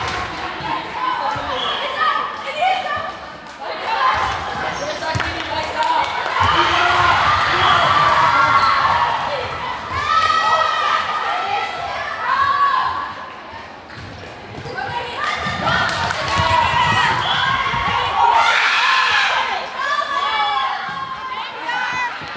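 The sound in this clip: Basketball and volleyball games in a school gym hall, with balls thudding and bouncing at an irregular pace beneath a constant din of shouting children and crowd voices that fills the whole stretch, briefly dipping before rising again.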